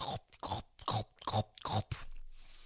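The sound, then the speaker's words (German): Crunchy, wet chewing on a carrot, a person's mouth imitating a bear munching, in about five loud rhythmic bites spaced roughly every half second, followed by a softer, trailing chew. “Der Zauberwaldbär isst auf seiner Karotte rum.”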